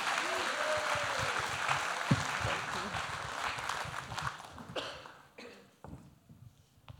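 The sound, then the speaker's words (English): Audience applause welcoming a speaker to the stage at a morning talk: dense, steady clapping that thins after about five seconds into a few scattered claps as it dies away. “So would you please put your hands together and welcome Sammy Gregg, first of all.”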